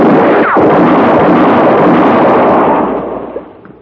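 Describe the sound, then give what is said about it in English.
A gunshot in a western-style standoff: a loud blast followed by a long, rolling, rumbling decay that gradually fades out over several seconds. “Had enough? Answer me or I'll shoot again.”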